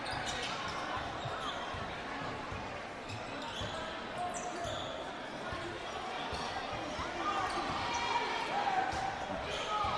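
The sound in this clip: A basketball is dribbled on the court during a game, with many quick bounces under the steady murmur of a crowd and continuous play-by-play talk.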